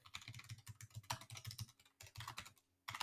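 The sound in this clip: Someone types a long message on a computer keyboard: quiet, rapid keystrokes in a dense, uneven stream, with a brief pause near the end before the typing picks up again.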